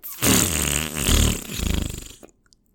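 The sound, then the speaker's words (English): A synthetic fart noise played by a smart speaker: one long, buzzy, sputtering blast lasting about two seconds, with rapid fluttering pulses that rise and dip in loudness before cutting off abruptly into silence. “We asked for a fart noise. We got a fart noise.”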